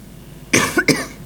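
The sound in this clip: Two sharp coughs burst out close together from someone with a slight cough, the second following right after the first, with no talk around them.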